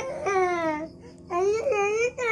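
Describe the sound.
A young child cries and whimpers in several drawn-out, wavering wails separated by short pauses, fairly soft and with no other voices over it.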